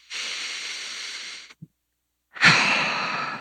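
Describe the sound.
A deep breath is taken alone: a long, steady inhale of about a second and a half, a short silent pause, then a fuller, louder sighing exhale that slowly trails off.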